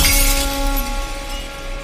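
Glass shattering, with a loud, bright burst of breakage at the outset and steady ringing tones that linger and fade over the following second or so.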